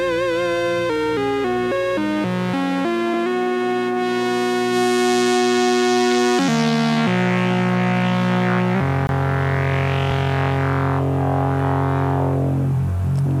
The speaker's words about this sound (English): Yeah, that's the sound of the PWM. How could I not review something that's made by PWM? Malevolent. This is the synth from Paul Whittington and Future Sound Systems, Finlay Shakespeare.